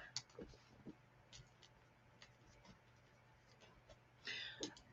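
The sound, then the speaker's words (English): Faint scratching of a pen writing names down, with soft, irregular strokes and light taps over a quiet background hum. “I'm going to write everybody's name down, their requests.”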